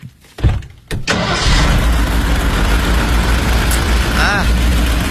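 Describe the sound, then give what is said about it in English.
A car engine with a sprung crankshaft gives a couple of brief bursts, then settles into a steady, rough running drone with a strong low rumble that holds to the end. “That is very rare in a car so new. It comes sometimes with the Marmon, however. What is it? Yeah, good, good. Well, it's a crankshaft is sprung. How could you tell by listening?”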